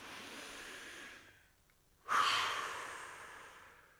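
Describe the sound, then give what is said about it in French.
A deep breath is drawn in, followed by a short silent pause, then a slow, fuller breath out that begins strong and fades gradually over the next two seconds. “on pourrait déjà utiliser notre souffle, notre respiration, pour un grand inspire, un expire profond en libérant les tensions.”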